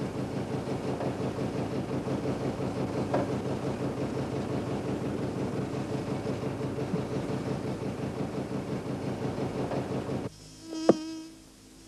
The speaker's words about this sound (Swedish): Säg inte att de där förbaskade getingarna bor kvar här i år också. Det är klart de gör.